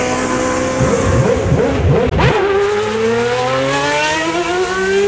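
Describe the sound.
Formula 1 race cars accelerate at a race start with a loud, high-pitched engine howl from several cars at once. After a brief dip midway, one engine's pitch climbs steadily as it pulls away.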